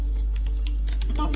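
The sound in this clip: Computer keyboard keys click during a software installation, with a few quick, crisp presses over a steady low hum.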